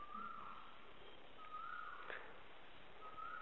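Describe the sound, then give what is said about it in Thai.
Song of a kra-wao bird: three long, clear whistled notes on a steady pitch, evenly spaced and faint. “นกกระว่าวนะเนี่ยร้องเพราะวังเวงฟังเอาเลยให้ร้องเลย”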